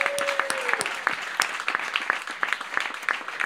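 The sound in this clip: A small studio audience at KUTX Studio 1A applauds after a live band set, the claps sparse and individually distinct rather than a dense roar, staying at a fairly even level throughout.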